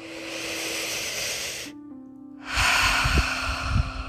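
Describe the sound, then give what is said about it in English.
A deep breath in and out, taken before a reading: two long, loud, airy hisses split by a short quiet pause, over a steady low hum, with no words. “Let's take a deep breath before we read this and hear this.”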